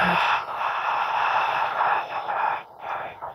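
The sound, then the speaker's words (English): A slow, steady exhale during a guided belly-breathing exercise: a sustained, breathy rush of air lasting the full clip, fairly even in loudness and with no voice over it. “Hold at the top and then exhale for 5.5 seconds. We're going to do that 2 more times. Exhale.”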